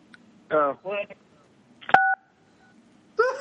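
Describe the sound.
A brief two-pitch telephone tone from a caller trying to ring in: a sharp click and a short steady dual tone that quickly fades, set between separate bursts of people talking.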